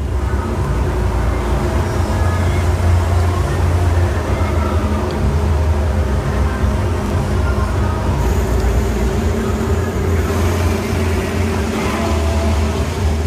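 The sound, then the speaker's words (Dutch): Racing engines roar at the start of the Italian Grand Prix at Monza, a dense, steady roar with no distinct revs or pauses that holds at an even, loud level throughout. “Daar worden de motoren gestart.”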